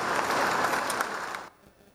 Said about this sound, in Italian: Per lui, che tanto si è speso in questi anni per i programmi di esplorazione lunare, un commosso applauso.